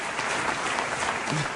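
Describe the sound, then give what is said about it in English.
An in-house crowd cheers and applauds in a dense, steady wash of clapping and shouting that fills the whole short moment at an even level. “The in-house crowd goes wild. They were really about that one. They were feeling it”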